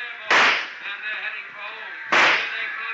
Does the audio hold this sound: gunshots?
yes

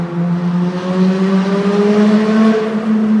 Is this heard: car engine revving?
yes

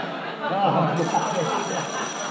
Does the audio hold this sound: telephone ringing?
yes

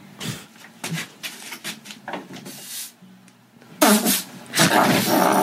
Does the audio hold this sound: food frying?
no

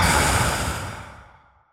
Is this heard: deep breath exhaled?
yes

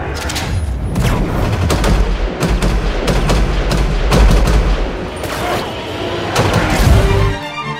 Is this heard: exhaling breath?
no

